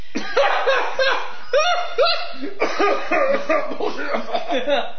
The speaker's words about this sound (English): Well, I just had something in my throat. I'm sorry. I was trying to get it out.